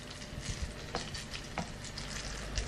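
Courgette and radishes fry in oil with a quiet, even crackling sizzle, broken by a few soft pops and stirring sounds.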